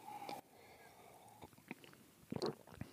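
Chewing and biting while someone tastes food: a few soft, crunchy bursts of mastication scattered through a quiet stretch.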